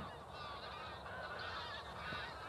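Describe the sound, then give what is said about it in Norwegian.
A large flock of Canada geese honks continuously as it takes off in Norway, a dense, steady chorus of calls that stays fairly faint with no talk. “Og mens vi snakket nå, så lettet alle canadagjessene der nede. Se, det er en stor flokk som kommer i lufta her.”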